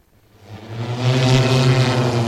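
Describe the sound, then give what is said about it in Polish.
A battery-powered Jetson One passenger drone built by a Polish designer flies during mountain tests, its steady tonal propeller hum swelling from faint to loud within a second and then holding strong. “Dron pasażerski został zbudowany przez polskiego konstruktora i po raz pierwszy te drony były testowane w górach.”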